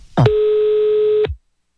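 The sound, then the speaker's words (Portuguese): A telephone call tone while placing a call: a short click, then a single steady mid-pitched beep held for about a second, loud and alone before it cuts off. “Vou ligar agora, vou ligar pra Conceição”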